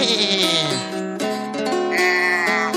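A young goat bleats in a few long, quavering, high-pitched calls, loud and clear, running one into the next with no silence between them.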